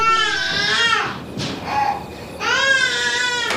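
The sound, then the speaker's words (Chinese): Baby crying early in the morning, loud wailing cries in two main bouts with a short, quieter gap between them, with no voices alongside. “姐，你能不能别让他哭了，让人睡觉了。”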